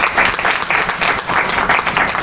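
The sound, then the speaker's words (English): Loud, dense audience applause, many hands clapping together in an even, sustained roar across the whole stretch. “So, I want to thank these guys again. Give them another round of applause.”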